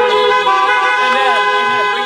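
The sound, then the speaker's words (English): A car horn sounds in one loud, steady, buzzy blare lasting about two seconds, with faint voice activity beneath it. “Let's give her a beep really quick.”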